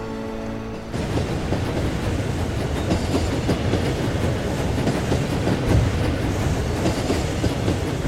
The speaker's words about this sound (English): The train continues its path across open farmland.